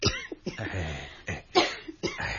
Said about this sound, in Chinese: 我吃了些糖水惹起些痰而已，喉咙痕起上来就咳两声